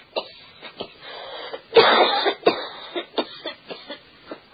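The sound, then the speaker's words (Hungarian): A tall, thin boy coughing: a string of many short, harsh coughs, with one longer rasping burst in the middle followed by smaller hacks that gradually thin out. “Egy hosszú, sovány fiú köhög.”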